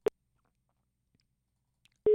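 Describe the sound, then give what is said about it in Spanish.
A phone line cuts off during a call-in: one sharp click, then near silence, and a steady line tone sets in at the very end. “Ay, se cortó la comunicación. Vuelva a marcar el oyente que estaba ahí en la línea porque no sé, no entró la llamada.”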